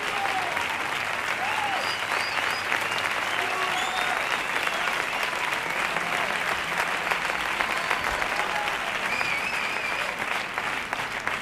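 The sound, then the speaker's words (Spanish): Sustained applause from a concert crowd after a live rock song, thick and even throughout, with scattered whistles and shouts rising above the clapping. “Un aplauso.”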